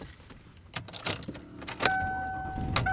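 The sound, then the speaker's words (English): Keys jangle and a few sharp clicks inside a car as the drive home begins, then a steady electronic tone sounds over a constant low rumble that lasts to the end. “And I am driving home.”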